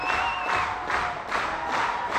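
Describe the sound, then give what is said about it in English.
An audience claps hands together in a rhythmic, unison beat, a faint repeating swell of claps over a soft crowd murmur. “Just stand up and clap your hands. We're asking everybody to help us out.”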